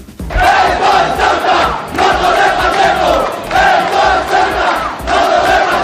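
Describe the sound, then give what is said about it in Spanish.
At a far-right rally in Ceuta, a crowd chants loudly in unison, shouted phrases swelling and falling in repeated rhythmic waves. “Una concentración de extrema derecha caldeó ayer tarde el ambiente en la ciudad. Se escuchaba esto.”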